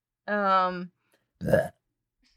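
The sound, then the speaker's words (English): A burp rises from the throat in a drawn-out, voiced, tonal rumble lasting about half a second, followed after a pause by a shorter, rougher burst. “That was a burp.”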